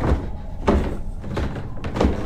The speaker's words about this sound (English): The farmer pushed the bolt across and pulled the door open.